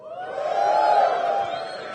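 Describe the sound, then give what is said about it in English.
An audience at a talk cheers for the Firefox web browser with a short crowd whoop that swells, holds briefly and fades, sustained voices blending into one drawn-out cheer. “For all those people that cheered, you should be ashamed of yourselves, because you should know better.”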